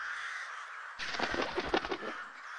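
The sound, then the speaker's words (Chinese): A raven gives a quick run of harsh, rasping caws over a faint steady hum. Quiet stretches come before and after. “路过的渡鸦吗？”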